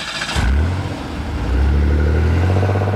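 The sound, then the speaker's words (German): A car speeds away: its engine catches with a sudden burst, then a loud, low, droning roar steps up to a higher, stronger level midway and holds there without any voices. “Ich brachte ihn in meinen Wagen und raste die Storrow Street zum Southeast Expressway hinunter zum Busbahnhof.”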